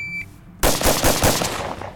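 Gunshots ring out as a 5.7 caliber handgun is test fired. Loud, sharp reports arrive in quick succession after a quiet start, with a few strong cracks.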